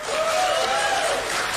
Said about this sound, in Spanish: improvisando entre los asistentes un sondeo de aplausos entre su vicepresidente y su secretario de Estado.